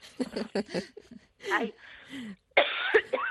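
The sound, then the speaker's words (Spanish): Coughing during a conversation: several loud, rough coughs and throat-clearing bursts come in uneven clusters, mixed with brief voiced sounds. “Y tose a gusto.”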